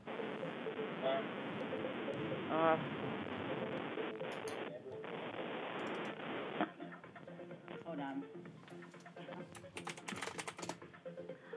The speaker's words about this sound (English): It is not letting me type my password in.